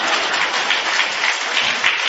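Applause at a Buddhist temple gathering for a woman who cooked meals for thousands of monks and devotees, a steady, dense patter of many hands clapping with no voices over it.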